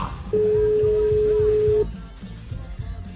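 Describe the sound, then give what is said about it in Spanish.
A telephone call's ringing tone gives one steady, mid-pitched beep lasting about a second and a half, loud over a low, rumbling background that carries on after the tone stops. “Haremos una llamada que es La Llamada al Líder.”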